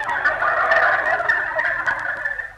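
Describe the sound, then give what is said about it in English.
A turkey gobbling, a loud, continuous, rapid warbling rattle lasting a couple of seconds before it fades away at the end. “What are you doing in here, turkey? I thought I put you out on the back porch.”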